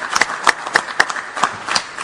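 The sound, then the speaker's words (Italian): Scattered applause welcoming a speaker to the podium: a few sharp, distinct hand claps at a loose, fairly regular rhythm rather than a dense ovation. “raggiungi il podio, accogliamolo con un applauso”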